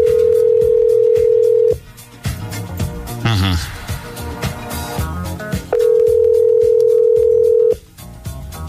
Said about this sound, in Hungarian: Na, hívjuk gyorsan a nap hallgatóját, aztán elköszönünk, és jövünk holnap.